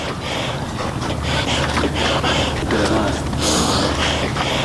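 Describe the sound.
Heavy, labored breathing of a mountaineer climbing Siah Koh mountain: repeated gasping inhales and snorting exhales, loud and breathy over constant wind noise.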